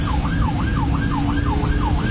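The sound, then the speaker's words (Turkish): An ambulance siren trying to clear the road: a loud, fast yelp sweeping up and down in about six even cycles over steady low road noise. “Siren ve korna işe yaramayınca ambulans sürücüsü bu kez anons yaparak yol istedi.”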